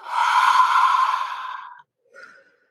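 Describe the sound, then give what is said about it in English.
A deep cleansing breath taken during a guided relaxation exercise: one long, loud, breathy exhale lasting nearly two seconds, then a brief, softer breath. “Now I want you to take a deep cleansing breath.”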